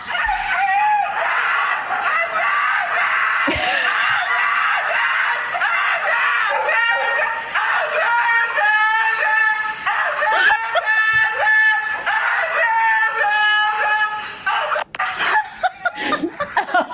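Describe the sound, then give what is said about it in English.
A husky dog screaming and howling while in for grooming: loud, continuous high-pitched wails and yowls that waver up and down in pitch, rising into drawn-out cries, with hardly a break throughout. “there's a husky that's staying there for the day. So the caption reads, you know, this something like when you have a husky that's in for grooming. And here is what it sounds like.”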